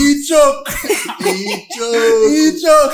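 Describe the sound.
A man choking and coughing: several rough, loud coughing bursts broken by harsh, strained voiced sounds, uneven in rhythm and close together.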